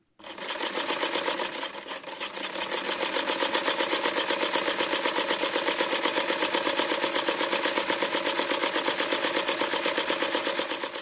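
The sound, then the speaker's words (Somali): Machines running in a thread-making factory outside Nairobi: a loud, continuous mechanical clatter of fast, even pulses that holds steady throughout, with no talking. “waxaad maqlaysaan dhawaaqa mishiinada warshadan dunta samaysa oo ku taalla meel ka baxsan magaalada Nairobi.”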